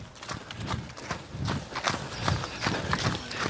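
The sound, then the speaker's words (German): Footsteps of easy, unhurried jogging repeat as a steady run of even, rhythmic footfalls at a constant pace, with many light impacts. No talk is heard. “jetzt traben wir nochmal locker los. Wie eben, nicht zu schnell.”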